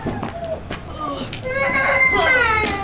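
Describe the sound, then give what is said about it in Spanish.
A young child cries in wavering, high-pitched whimpers that grow stronger in the second half, while an adult voice speaks softly nearby. “Ven, mi niño, no llores. Ven, ven, te cargo.”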